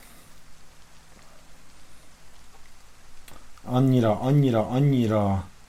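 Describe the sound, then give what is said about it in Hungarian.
Heavy rain keeps up a steady, fairly soft hiss throughout, and partway through a person starts talking over it. “Mondjuk az tök jó lenne, ha elállna az eső, de mondjuk most annyira.”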